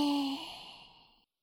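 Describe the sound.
A long, soft exhale during a guided breathing exercise, steady at first and then gradually fading out over about a second.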